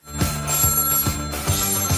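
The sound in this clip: Telephone ringing with an incoming call, a steady bright ring tone that holds over a regular beat of low thumps. Loud throughout, with no talking.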